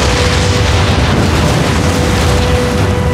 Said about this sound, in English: A strange purple spark leaped from the Doctor's device. Then, everything exploded.